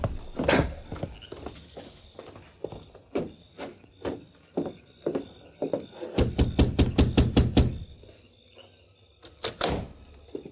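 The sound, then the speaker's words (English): Clip-clop of horse hooves, a radio drama sound effect of a rider arriving at a house late at night. Many sharp, faint knocking beats come at irregular spacing, then a quicker steady burst, then a few more, with no talk. “the Lone Ranger rode straight for the home of the prison warden. Ho, Silver, ho. Right there, big fella.”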